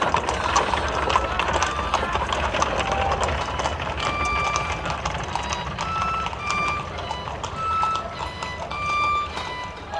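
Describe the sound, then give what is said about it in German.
A horse-drawn cab drives off with the horse's hooves clip-clopping in a steady, rhythmic beat that continues at moderate loudness through the whole stretch. “Dann fuhr der Wagen los, von Hohngelächter verfolgt.”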